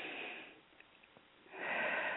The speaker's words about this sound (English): let's take another deep breath, because sometimes the first one is just like the normal breath. Let's take another one.